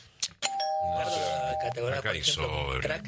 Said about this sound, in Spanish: Mirá, ahí está sonando el top.